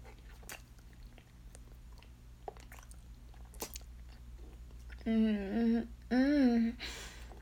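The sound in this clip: Hungry, eager chewing and biting of food: repeated wet, crunchy chomps, followed by two drawn-out voiced moans of enjoyment.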